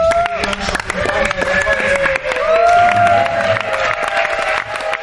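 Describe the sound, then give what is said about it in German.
Cheering from the French women's torball team after their 4:2 final win over Germany at the 2018 International Nations Cup, with loud, high excited shouts and whoops that continue unbroken over a dense crowd roar. “Der Jubel bei den Französinnen hörbar groß nach diesem 4:2 Finalsieg über Deutschland.”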